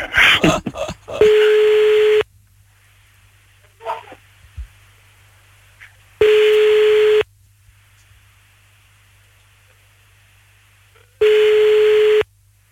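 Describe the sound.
An outgoing telephone call rings on the line: three steady ringback tones about five seconds apart with near silence between them. A short burst of dialing noise comes at the start, and no one speaks.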